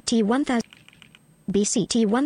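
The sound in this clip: A few soft, brief clicks of key shortcuts being typed on a computer keyboard, falling in a pause between stretches of talking.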